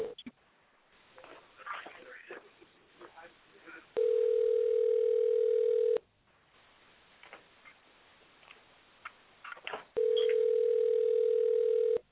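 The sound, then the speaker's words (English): An outgoing phone call rings with two long, steady ringback tones, each lasting about two seconds and separated by several seconds of quiet. People talk during the gaps between the rings. “Yeah, we gonna call her up real quick on air.”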